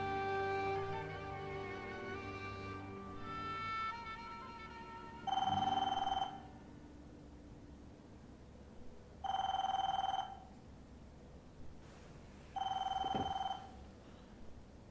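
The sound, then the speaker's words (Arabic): A telephone rings three times in evenly spaced, loud electronic bursts, each about a second long with silence between. “ليكي إذا كان التليفون من شاني قلي لهم أنا مشغول هلأ.”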